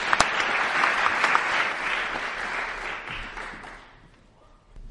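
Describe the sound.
An audience applauds to welcome George and the other panelists to the platform: dense, steady clapping that tapers off toward the end.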